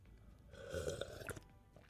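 Someone slurping tea with a single drawn-out, wet slurp, faint and alone, swelling in the middle and ending in a small click.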